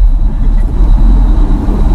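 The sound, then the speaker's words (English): Steady low road-and-engine rumble heard from inside a moving car, loud and continuous with a faint thin whine above it and no voices. “This is us in the car.”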